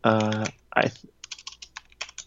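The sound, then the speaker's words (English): Typing on a computer keyboard: after a brief voice at the start, many quick, light keystroke clicks follow in an uneven run, fairly faint. “I was looking up, Brian K. Vaughan and I kept typing brain.”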